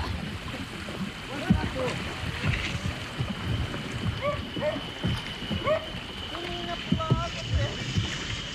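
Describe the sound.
A boat moving on river water in the rainforest, carrying a boatman and hunters: a steady low rumble with water washing against the hull, plus a few short tonal calls above it.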